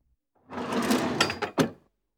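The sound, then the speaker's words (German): An elevator door slides open with a steady mechanical rumble lasting about a second, ending in a sharp clack as it stops, heard alone without voices. “Die Aufzugtür geht auf.”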